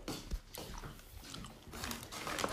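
Crunchy chewing of a Smartie chocolate candy, with a few crisp bites and mouth noises, one sharper crunch early on, at a fairly steady, moderately quiet level.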